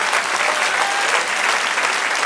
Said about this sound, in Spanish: Denle otro aplauso al Señor.